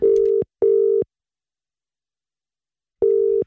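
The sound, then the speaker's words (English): Ringing tone of an outgoing telephone call: two short, steady mid-pitched beeps in quick succession, a silent pause of about two seconds, then a third beep as the cadence repeats. No one speaks. “So we're going to give him a call, find out exactly what is going on.”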